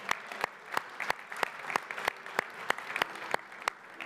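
A church audience claps in unison on Mother's Day, producing a steady series of sharp, evenly spaced claps that keep a regular beat over faint crowd murmur.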